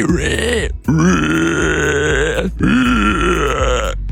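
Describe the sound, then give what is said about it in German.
A person imitates a screaming wild boar with three long, loud, harsh squealing grunts. Each is a strained, rasping cry separated by a brief break for breath. “Und uns ist zu Ohren gekommen, du kannst eine Wildsau. Eine schreiende Wildsau, ja.”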